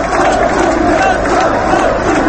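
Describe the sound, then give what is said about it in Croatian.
Loud crowd chanting at a rally, greeting a speaker with a dense, continuous roar of massed voices that stays level throughout. “Na skupu je govorio i sin Ratka Mladića, Darko, koji je dočekan snažnim aplauzom i skandiranjem.”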